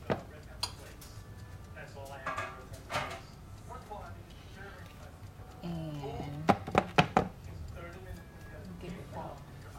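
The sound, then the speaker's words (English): A pan is moved and flour brought over in a kitchen: light clinks and knocks of cookware under a talking voice, then a brief cluster of sharper clatters. “I'm gonna move this pan, bring my flour over.”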